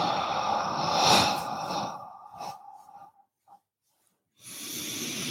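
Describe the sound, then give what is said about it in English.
Slow breathing during a relaxation exercise: a long, soft, airy breath fades into silence, then another breath begins, steady and moderately loud. “And again, you just breathe in. Feel yourself and let go.”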